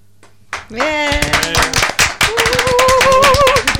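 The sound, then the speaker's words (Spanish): Audience applause after a poetry reading: a burst of dense, loud clapping that continues steadily, with voices calling out and cheering over it. “Ahora ya tienes tus aplausos.”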